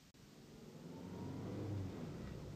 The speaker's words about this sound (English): This car runs very smoothly